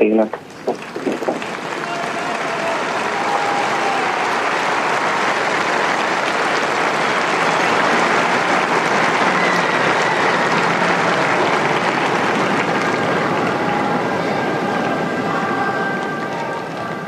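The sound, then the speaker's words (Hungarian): Applause from a crowd thanking the Pope after his catechesis, opening with a few scattered claps and quickly swelling into a dense, even roar. It holds strongly for about fifteen seconds and then eases slightly. “Szokás szerint egy nagy tapssal köszönik meg a Szent Atyának a mai jelenlétét, katekézisét.”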